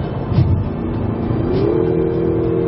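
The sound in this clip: Engine of a Lexus NX 200t in Sport+ mode revving as the throttle is pressed: a steady mid-pitched drone whose tone climbs partway through and then holds at the higher pitch.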